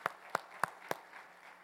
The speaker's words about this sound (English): Why don't you give all these men and women a hand of applause real quickly.